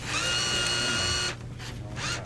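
A Pepsi soda vending machine whirs loudly as its robotic arm picks up and dispenses a drink. The steady mechanical whine cuts off after about a second, leaving quieter rattling movement.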